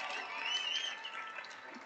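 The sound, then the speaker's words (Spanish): Applause for a national team's technical staff, faint and steady, blending with soft crowd noise. “¡Aplauso para ellos!”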